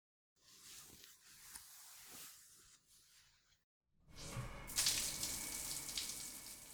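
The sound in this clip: Water runs during a bath: a steady hiss that stops for a moment, then returns louder and fuller for the second stretch.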